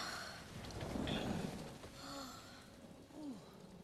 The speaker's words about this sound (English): I remember when I was a little girl and it used to storm like this.